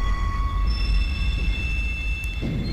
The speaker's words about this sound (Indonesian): Berikutnya ada lokomotif BB30127.